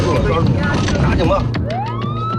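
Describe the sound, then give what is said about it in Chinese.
A police car siren during a road chase with a Jinbei van. After a stretch of dense, loud mixed noise, the siren's electronic wail rises steadily in pitch. “前不久在北京大兴的旧宫镇呢，一辆金杯车和警车上演了一场公路的追逐赛”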